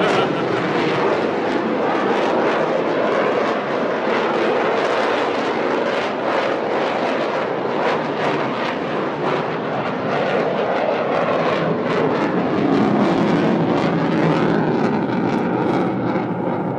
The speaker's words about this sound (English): It's dark enough that you can see the jet there, I don't know what you want to call it, plume or whatever. Yeah, coming out of the afterburner on the back.